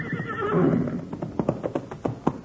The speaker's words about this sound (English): Now, if that ain't the smartest horse on 4 feet.